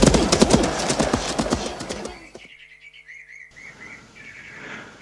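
Horse hooves clip-clop at a quick, steady pace as a rider sets off. The loud, rapid hoofbeats last about two seconds, then stop, leaving faint bird chirps alone.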